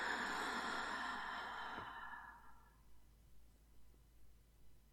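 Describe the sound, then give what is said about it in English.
A slow, deep breath in and out comes as a soft, airy sigh that fades gradually over a few seconds, followed by faint, quiet breathing. “Let's do one more. Breathe in. And out again.”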